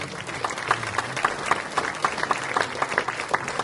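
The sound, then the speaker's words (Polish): Audience applause at a medal award ceremony, a sustained, moderately loud patter of many hands with distinct, fairly regular claps running through it. “Drodzy Państwo, myślę, że brawa możemy powiedzieć.”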